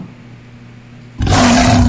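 A lion roar sound effect is played for the Leo zodiac sign. It bursts in loud and rough after near silence and holds at full strength to the end.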